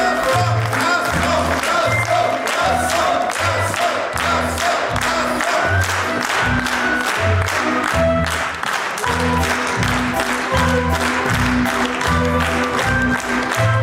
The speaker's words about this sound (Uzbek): Sahnaga chiqqan rejissyor Jo'rabek Ro'zmetov yuldasta va olqishlar nishoniga aylandi.